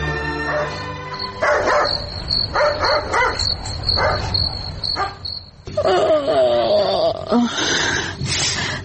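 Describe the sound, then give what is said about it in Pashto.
A dog barks at midnight outside a house in a series of sharp, harmonic barks and yelps, with a louder burst of barking toward the end, over a steady, high chirring of crickets. “زو ګورم چې دا سپی ولې غاپي”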